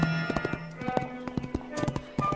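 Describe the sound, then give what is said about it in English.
Horse hooves clip-clop along a long trail into New Mexico, a steady, loud run of many sharp hoofbeats in an even walking rhythm, with no voices. “The trail had been long, over 100 miles into New Mexico in 3 days, and he and his horse both needed a rest.”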